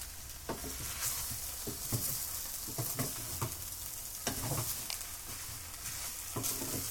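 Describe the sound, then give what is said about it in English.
Vegetables and potatoes sizzling in a pan as they are tossed, a faint, steady frying hiss broken by many soft clattering stirs at irregular intervals. “I've basically just been tossing my veggies around.”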